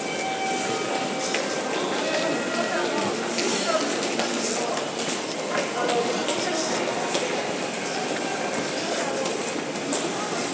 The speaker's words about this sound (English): arguably the biggest station in the world. But let's head down a different path, and I have to still keep on remembering to walk on the left, not walk on the right.